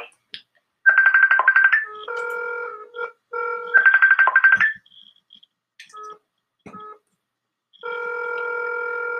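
A telephone rings during a call, with repeated bursts of trilling ring tones alternating with steadier multi-tone beeps, fairly loud and separated by short gaps.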